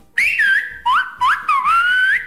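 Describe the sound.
Whistled speech rendering a Spanish phrase that asks how things are in Portugal: several loud, clear whistled tones with sliding pitch glides, separated by short gaps. No talk.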